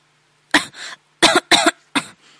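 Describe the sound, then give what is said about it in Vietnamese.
Coughing from someone choking on tea: five harsh, dry coughs in short, uneven groups, loud and alone with no talk. “Sở Văn Ninh tự hồ bị bỏng, y sặc trà, liên tục ho khan, gương mặt đỏ bừng lên”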